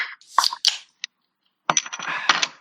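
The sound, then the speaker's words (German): A beer bottle being opened: a few sharp glassy clinks and a lone click, then a denser cluster of rattly knocks and clatter after a short silence. “Mein Bierchen ist geöffnet.”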